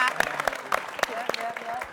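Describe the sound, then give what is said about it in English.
Audience clapping for a guest who runs a YouTube channel. Sharp, scattered claps are mixed with voices talking over them at a moderate level. “Let's give him a round of applause, guys.”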